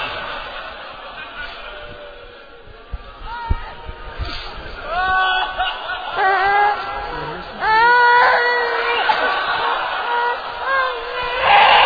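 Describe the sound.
A baby cries in loud, wailing bursts with bending, sliding pitch, growing stronger and more frequent toward the end, set over a low background murmur.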